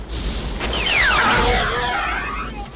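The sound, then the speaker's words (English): A sci-fi phaser shot fired at a Klingon: a loud, sustained electronic whoosh with bright tones that sweep downward in pitch over a steady low rumble. “The Klingon whips round, weapon raised, so Kirk shoots him with his phaser,”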